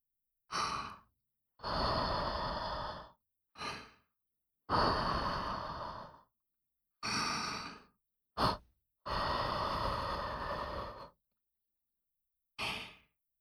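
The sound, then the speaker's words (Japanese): Someone blows on a spoonful of food to cool it while feeding another person: eight airy, breathy puffs of varying length, some short and some long, separated by silent pauses. “ふうふうしてあげましょうね。”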